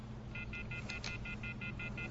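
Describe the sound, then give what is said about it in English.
A telephone number is dialed as a quick, even run of touch-tone beeps, quiet over a low background hum. “Sir, please dial 411.”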